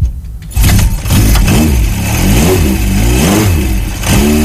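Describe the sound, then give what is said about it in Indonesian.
A motorcycle engine revs while being warmed up, loud and continuous after a brief quieter opening, with repeated rises and falls in pitch as the throttle is blipped many times. “Manasi motor itu dihidupin mesinnya gini loh.”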